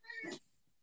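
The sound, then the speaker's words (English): A pet cat lets out one short, fairly faint meow that cuts off abruptly after a brief moment. “I am so sorry. That is my cat.”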